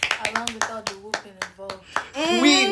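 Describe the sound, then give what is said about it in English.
Family members clapping for their parents at home, a quick run of sharp handclaps with voices over them, ending in a louder burst of cheering. “let's clap for our parents.”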